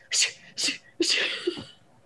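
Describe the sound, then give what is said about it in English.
A person imitates a cat's sneezing attack with three breathy, hissing sneeze sounds. The first two are short, and the last is longer and drawn out. “he's been having these like sneezing attacks where he's like,”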